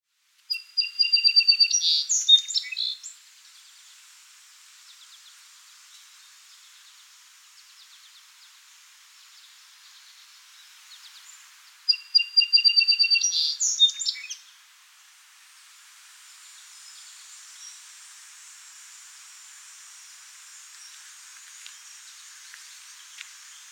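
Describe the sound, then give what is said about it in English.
Eastern Phoebe song: two bursts of raspy, high chirping notes separated by a long pause, over a faint steady hiss. “Eastern Phoebe.”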